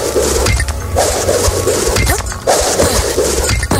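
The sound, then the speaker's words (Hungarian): Bricks crash and clink as they fall in a video game, sharp impacts repeating over a loud, dense, steady layer of noise. “Na most akkor át kell ugrani ez fölött, amikor mindig kell, hogy másodpercenként zuhan a következő tégla.”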